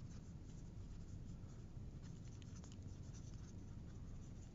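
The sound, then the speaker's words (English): Notes being written down, a faint, steady scratching of strokes across paper that runs continuously without any talking. “So I'm just gonna write down what we've discussed so far.”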